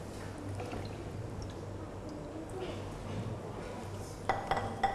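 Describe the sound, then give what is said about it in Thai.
Dishes, bowls, plates and spoons are washed in a basin: faint watery sloshing and rubbing run underneath, then a few light clinks of cutlery near the end. “ล้างอะไรก่อนดีคะลูกล้างช้อนซ่อมก่อนเนอะ”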